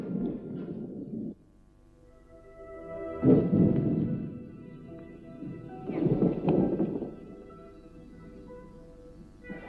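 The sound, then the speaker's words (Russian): Deep thunder rolls as heavy rain starts, three loud rumbling bursts with quieter stretches between them and a soft wash of rain underneath. “Сейчас такой дождь начнется.”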